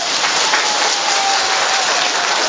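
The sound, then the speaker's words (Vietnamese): An audience clapping hands: a loud, dense, unbroken rush of many claps that holds an even level throughout. “Ai là người yêu cả Chúa cả anh em? Vỗ tay.”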